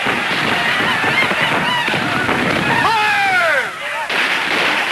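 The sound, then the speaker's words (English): Loud rifle fire from a trench during a battle, a dense, continuous din of shots with whining, falling whistles cutting through near the end. “The front line of Confederates drops to its knees and returns fire. In the trench, Tom shuts his eyes as his rifle goes off.”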